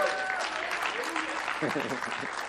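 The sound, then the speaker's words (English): A church audience claps and shouts in a charismatic service, steady hand claps mixed with raised voices, moderately loud throughout. “How about a charismatic shout? How about a charismatic amen? Clap your hand, shout, and get in it”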